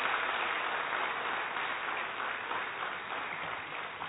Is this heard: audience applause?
yes